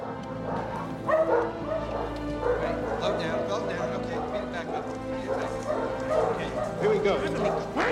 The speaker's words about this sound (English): Inside are rows of cages containing dogs of different sizes and breeds.